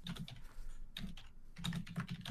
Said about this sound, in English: this is me trying to touch type